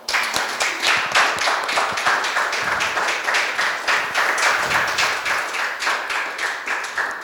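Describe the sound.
An audience applauds players introduced at a live tabletop roleplaying show: dense, steady clapping that holds at an even loudness for the whole stretch, with no voices over it.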